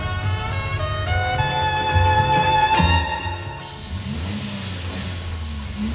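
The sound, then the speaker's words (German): A car engine runs inside a closed garage. A loud, steady droning hum with rich harmonics lasts about three seconds, then settles into a quieter, rougher rumble whose pitch wavers up and down. “Und jetzt lässt er den Motor laufen. Das hat er nämlich verlangt, der Entführer. Bei geschlossenem Garagentor den Motor laufen”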